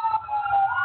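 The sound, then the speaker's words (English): An emergency vehicle siren passes on a main road, a brief wailing tone that holds steady and then rises slightly at the end over a low rumble. “the sirens. Yep. I live right on that main road”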